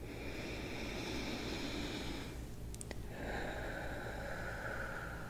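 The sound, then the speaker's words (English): Deep breathing in through the nose, a long, steady, airy hiss broken by a short pause midway before the drawn breath continues. “Now breathe in deeply through your nose again.”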